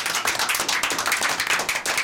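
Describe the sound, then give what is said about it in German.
Audience applause, many hands clapping in a dense, steady rhythm that holds at an even level throughout, with no voices. “Bravo! Noch einmal auch einen Applaus.”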